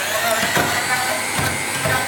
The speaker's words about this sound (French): Une petite pincée de sel et tu vas commencer à mixer.